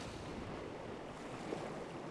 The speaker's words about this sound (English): a little blustery, windy, dewy, wet. And in front of us is the green tundra of the coastal plain.